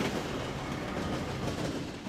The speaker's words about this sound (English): Some Norfolk Southern freight trains sit for hours waiting for Metra commuter trains like this one to cross.